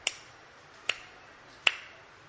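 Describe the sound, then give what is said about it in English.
Three sharp hand claps ring out alone, evenly spaced about 0.8 seconds apart. Each is a crisp, bright crack with a short decay, and the third is the loudest. “clapped his hands three times.”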